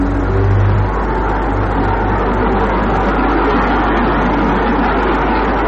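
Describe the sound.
Cars pass outside as a loud, steady rushing rumble that barely changes in level, blended with the constant whir of a fan, with no voices.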